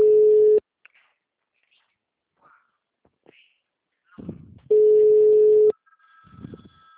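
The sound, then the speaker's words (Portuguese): Telephone ringing tone on a call line: two long, steady beeps at one pitch, the first cut off at the start and the second about a second long, with faint rustles and brief low murmurs in the gaps. “Aí, pode atender que sou eu.”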